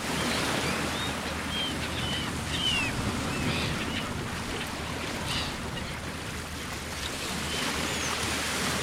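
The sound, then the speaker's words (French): Sea waves wash at the seashore in a steady, dense roar of surf that barely changes in level, with faint high chirps scattered above it. “Installons-nous au bord de la mer.”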